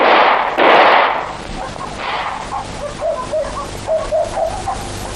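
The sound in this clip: Gunfire in a dramatic war scene: a few loud, sharp blasts at the start, followed by quieter, scattered sounds as the shooting dies down.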